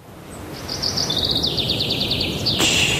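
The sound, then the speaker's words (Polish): Birds singing: a quick series of high, bright chirps and trills repeated in a fast rhythm over soft background noise, with a sharp click near the end. “Spłoszysz ptaszki. Śpiewają w Muzeum Narodowym w Warszawie na wystawie Józef Chełmoński.”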